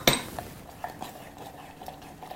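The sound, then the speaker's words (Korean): A spoon stirs cherry tomato sauce with grain syrup in a pot. A sharp clink opens it, then several soft taps and scrapes follow at an uneven pace, fairly faint and with no voices. “2큰술을 잘 넣으시고”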